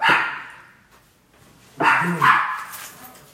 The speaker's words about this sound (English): That damn dog.